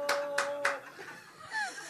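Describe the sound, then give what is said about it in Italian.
A single audience member in the front row claps: three sharp, evenly spaced claps, then people begin talking. “Beh, uno applaudì. Uno in prima fila.”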